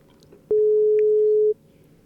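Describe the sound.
A telephone tone sounds as a call is placed: a single steady, mid-pitched electronic beep lasting about one second, clean and even against a quiet background.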